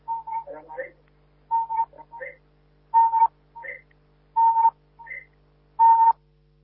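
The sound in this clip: A disconnected phone line tone follows a call that has cut off: short electronic beeps repeat at a steady, evenly spaced interval over a low constant hum.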